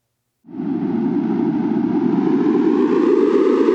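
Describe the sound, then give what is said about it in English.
A synthesized sonification tone for ocean carbon outgassing at a coastal array off New England in the Atlantic enters after brief silence as a loud, hissing, buzzy drone that sustains steadily while its upper range slowly brightens. “For this data nugget, outgassing will sound like this. The more gas that is released into the air, the more the sound will become louder and brighter.”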